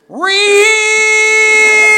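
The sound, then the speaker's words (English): A person imitates a cat's meow with one loud, sustained vocal tone that rises quickly at the start, then holds steady and nasal until the end. “can you give me your best meow?”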